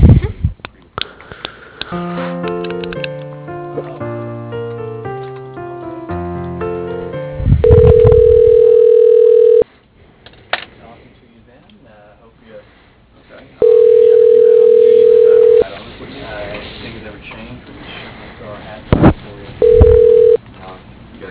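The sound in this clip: Telephone ringback tone during a call transfer: a quick run of short electronic beeps and tones, then steady, even rings of about two seconds each, separated by longer silent pauses, with a brief final ring cut short.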